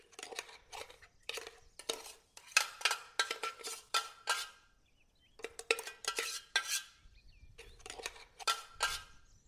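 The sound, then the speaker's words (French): Crushed biscuit mixed with butter being pressed down onto baking paper, heard as irregular bursts of light tapping, clicking and scraping of a utensil, with short quiet gaps between the bursts. “je vais venir tasser mon biscuit.”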